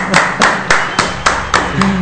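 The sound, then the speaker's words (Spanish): Sharp hand claps, seven evenly spaced in a steady rhythm, fairly loud and alone, given as applause. “¡Un aplauso, por favor!”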